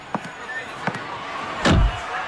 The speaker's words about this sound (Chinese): 待轿车停稳，林经理赶紧上前一步，打开了车门。